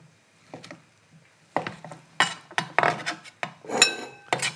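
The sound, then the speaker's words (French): A knife cuts a 2–3 cm thick block of feta into half-centimetre slices and then small cubes. Sparse soft knocks give way to a livelier run of sharp clicks and taps on a hard surface. “Je vais juste couper des lamelles d'un demi centimètre et ensuite des petits cubes.”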